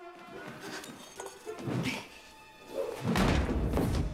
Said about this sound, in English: Miss Honey rushes to a pile of shot balls. Struggling to lift one, she tosses it across the room.